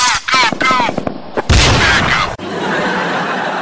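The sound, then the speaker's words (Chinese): Gunfire in a street in Rio de Janeiro during the Olympics comes as loud, dense bursts of harsh noise lasting several seconds. A voice is briefly heard at the start. “巴西的黑帮也是丢人了，开奥运会这是何等的国际大事啊！全世界人民都看到的，有啥子矛盾不能够开完过后再解决吗？哎。在街上开枪，”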